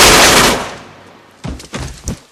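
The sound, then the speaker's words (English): Gunshot as a man shoots a woman in the head: a loud blast that rings down over about a second, followed by a few sharper, shorter bangs. “Quaid shoots her in the head.”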